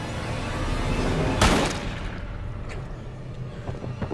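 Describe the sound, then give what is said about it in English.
A gunshot from a gun barrel poked out through a front door's shutters: one sharp, loud blast cutting through a steady, noisy background, followed by faint scattered sounds. “Josh is blasted through with shot from the barrel of the gun poked out through the front door”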